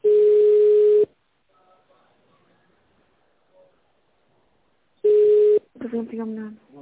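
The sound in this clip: Telephone keypad tones dial an extension number: a long electronic beep, then a few seconds of near silence, then a second shorter beep, followed at once by someone speaking.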